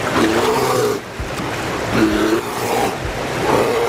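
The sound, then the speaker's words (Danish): Bear roars from bears catching salmon in a river: three drawn-out, deep, rasping calls rise above a steady rushing noise that continues throughout. “det her var bjørnen”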